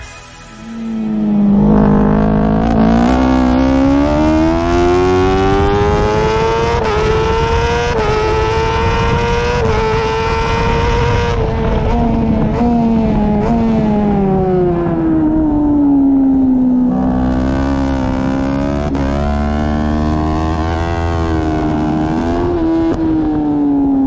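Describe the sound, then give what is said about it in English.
Onboard engine howl of a BMW factory superbike going through the gears at the Lausitz Ring, a loud, continuous high-revving wail that climbs, holds, and falls away before surging again near the end, with no talk. “the pure sound of a BMW factory superbike going through the gears, for no other reason than it sounds incredible, and it's a great way to introduce today's guest. But first, let's just enjoy hearing a few corners of onboard action from the Lausitz Ring.”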